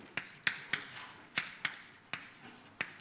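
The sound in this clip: An equation is written on a board during a physics lecture on turbulence, heard as seven short, sharp strokes, each a brief bright scrape, in an uneven rhythm. The strokes are fairly faint and no one talks.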